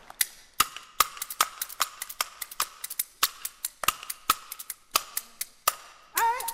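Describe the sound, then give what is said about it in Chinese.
Bamboo clappers (kuaiban) clacking on stage, many sharp, dry wooden cracks in a bouncing, uneven rhythm with brief pauses, and a voice starting right at the end. “打竹板走上台，高高兴兴唱起来”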